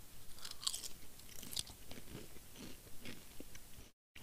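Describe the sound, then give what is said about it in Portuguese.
Someone chews crunchy savory snack chips while eating dinner, making faint, close crunches and wet chewing sounds in an irregular rhythm, with a few sharper bites standing out, and no talking. “Eu vou comer mais uma vez porque tá ficando tarde. Eu preciso, eu preciso comer, cara.”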